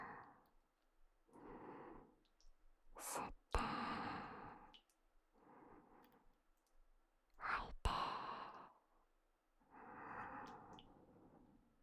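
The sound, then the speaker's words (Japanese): Deep breaths drawn in and let out in a slow series of soft, airy sighs, a few sharper inhales standing out among them, with no talking. “深呼吸。”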